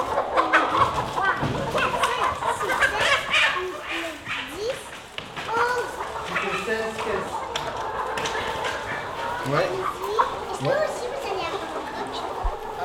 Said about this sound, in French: Ça fait du bruit le coq, attention.